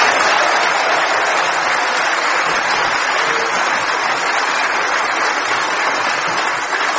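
A studio audience at the Playhouse Theatre in Oxford applauds to welcome the panellists, in a loud, dense, steady burst of clapping that fills the whole stretch and eases slightly at the very end.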